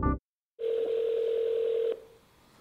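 Telephone dial tone while placing a call: after a brief burst and a short silence, a single steady mid-pitched tone holds for over a second, then cuts off, leaving faint hiss.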